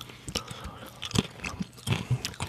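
Crunchy bites and chewing on a cracker: a few sharp, irregular crunches with softer mastication between them, fairly quiet and without talk.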